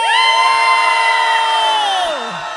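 An audience at a sing-along event shouts loudly in unison in response to a call from the stage. The single sustained yell holds steady, then tails off with a falling pitch.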